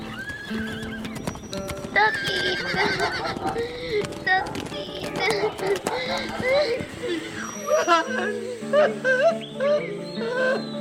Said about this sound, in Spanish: Moreira se desprende de su mujer, monta su caballo y antes de emprender el galope final, le tira un beso al hijo de sus entrañas.